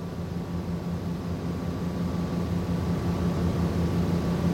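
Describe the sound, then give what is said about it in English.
An amphibious plane coasts toward the shore, giving off a steady, low engine drone with a faint tonal hum that holds an even level throughout. “The amphibious plane coasts toward the shore by Michelle's camp.”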